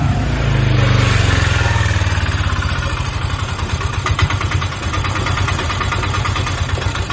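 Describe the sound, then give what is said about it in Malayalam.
An auto-rickshaw engine idles with a steady, low, rhythmic putter of closely spaced pulses. It runs loud and continuous for the whole stretch, with no talk over it. “നീയായിരുന്നോ ഓട്ടോറിക്ഷയുടെ ശബ്ദം കേട്ടപ്പോ തന്നെ കയറി വിളിച്ചതാ?”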